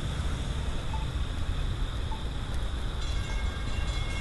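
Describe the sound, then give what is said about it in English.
A train passing makes a continuous heavy rumble with a steady, faint high-pitched whine above it, and no voices. “There's those good, the good bells. Let's see if we can get a good sound of the train here.”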